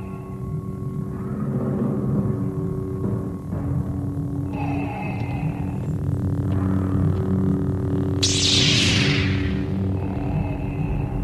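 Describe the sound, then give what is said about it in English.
A lightsaber hum from a film clip: a steady, low electric drone with a faint throbbing pulse throughout, broken near the end by one brief, bright swoosh. “asking about the lightsaber sound. And we do have a little clip of that as well.”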